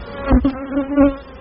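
A swarm of honeybees from managed backyard colonies in rural Illinois buzzing: a loud, steady, low drone with a few swelling surges as individual bees pass close.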